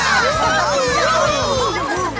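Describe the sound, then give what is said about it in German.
A crowd cheers at a dog show award ceremony as winners of the best-looking mixed-breed prize are announced. Many overlapping voices shout and whoop in a loud, dense, unbroken roar. “Alle jubelten um die Wette.”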